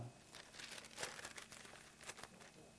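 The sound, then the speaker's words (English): Thin Bible pages being turned, producing soft crinkling rustles and several quiet flips in a row. “2 Thessalonians, and look at, turn those pages. I like to hear those pages turn.”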